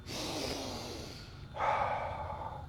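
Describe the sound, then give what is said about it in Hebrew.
A person takes a slow, audible breath, a long airy stretch followed by a stronger, rushing exhale. The breath is heard alone, with no talk. “אני מזכיר לכם עכשיו לנשום. עכשיו.”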